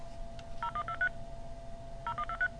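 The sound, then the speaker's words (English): Telephone dialer DTMF tones played at slow speed: two separate clusters of several short, steady beeps, with a long gap between them and a low hum underneath. “Now it's at number 9. Now that is slow. If you dialed it at that slow speed, you wouldn't get anything.”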